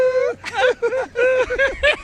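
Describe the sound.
A voice imitates the crying of La Chilindrina, the child character, with several short, high, wavering wails that bend up and down in pitch, separated by brief gaps.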